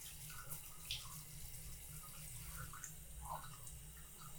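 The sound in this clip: Water runs to rinse someone off during a bath. The flow is a faint, steady splashing with no pauses.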